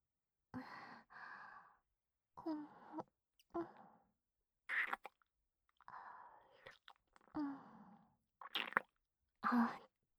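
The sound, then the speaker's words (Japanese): Soft, wet kissing sounds come in several separate bursts with short pauses between them. Breathy sighs and exhales are mixed in, and the whole is quiet. “では、キスさせていただきますね。”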